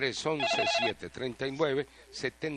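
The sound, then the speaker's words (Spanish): A telephone rings with an incoming call, giving a short, bright warbling tone near the start that sits beneath continuous talk. “Tengo otra llamada, vamos con ella.”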